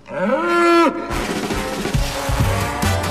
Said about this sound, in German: Der Stier ist hier.